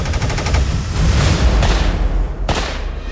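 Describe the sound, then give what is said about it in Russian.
Gunshots from a Soviet TT self-loading pistol: a rapid run of sharp cracks at the start, then a few louder single shots spaced apart, each with a short ringing tail. “Пистолет ТТ.”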